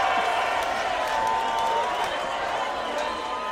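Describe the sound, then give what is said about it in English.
A crowd in Belfast cheers and applauds loudly as a performer makes an entrance. The clapping and whooping form a dense, sustained roar that holds steady throughout, then eases slightly near the end. “I'm gonna need you to give a big, warm, Belfast, juicy welcome to Juicy Roman!”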